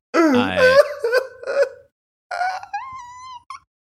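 A man groans and moans in anguish while watching a Cowboys football game, in two long vocal outbursts with wavering, sliding pitch and a short pause between them.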